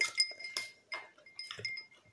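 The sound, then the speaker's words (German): A spoon stirs a bubble drink in a glass, giving a few light, ringing clinks at irregular intervals. The sound is faint, with soft rustling between the clinks. “Oh Gott, ich rühre jetzt mal um. Wen sprichst du die ganze Zeit? So, jetzt umrühren hier.”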